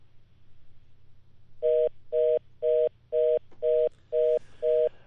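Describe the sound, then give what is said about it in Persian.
Telephone disconnect tone after a dropped call: seven evenly spaced electronic beeps at one steady pitch, each about a third of a second long, sounding clearly over a faint low hum. “متاسفانه که تماس ما با آقای ضیاءالرحمن حسرت گزارشگر رادیو آشنا قطع شد”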